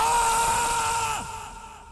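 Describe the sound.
A man screams in fright, a long high strained cry held at a steady pitch that then drops and fades away near the end.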